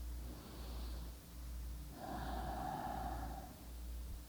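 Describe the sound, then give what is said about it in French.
Slow, purely abdominal breathing during a guided breathing exercise, with hands on the belly: a few long, soft, airy breaths in and out, heard alone without talk. “3 fois, lentement, respiration uniquement abdominale. On y va.”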